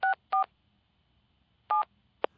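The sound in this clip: Touch-tone keypad beeps as a telephone number is dialed: a few short, clear dual-tone beeps in an uneven rhythm, with a long pause before the later ones, heard alone against near silence.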